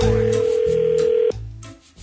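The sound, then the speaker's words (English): A telephone rings for an incoming call: a steady electronic tone that sounds for just over a second, then cuts off abruptly and gives way to lower, quieter sounds. “I'd be careful answering that call. It could be another Z Morning Zoo phone scam.”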